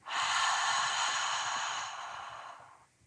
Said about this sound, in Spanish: Inhala por la nariz. Exhala por la boca.